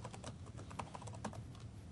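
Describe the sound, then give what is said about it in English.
Computer keyboard keys clack as a password is typed, a rapid, uneven run of many light clicks with no voices. “And I'm going to tell it I'll put my password in so people can't see it.”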